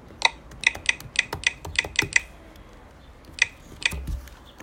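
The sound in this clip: Someone types a password on a computer keyboard: a quick run of crisp, clicky keystrokes, a short pause, then a couple more taps, fairly faint and with no voices.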